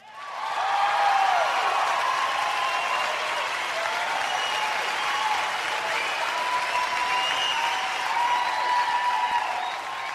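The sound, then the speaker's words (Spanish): Audience applause: steady, loud clapping from a crowd that swells quickly and holds at an even level throughout. “Y aquí es donde tienes que aplaudir.”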